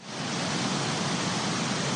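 Water gushes over slippery rocks and through a cliff near Kindia, Guinea, a dense, steady rushing roar that swells in at the start and then holds level.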